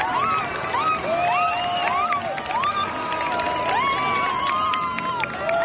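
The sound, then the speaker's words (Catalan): An audience crowd cheers and acclaims at a cycling event presentation, a dense, continuous roar of voices with shrill shouts rising and falling above it throughout. “Crec que és el moment més amb més aclamació des de que sóc aquí.”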